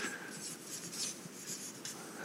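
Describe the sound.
Writing sounds as a lecturer notes something down, a continuous, dense scratching of the writing tool that runs steadily for the whole clip.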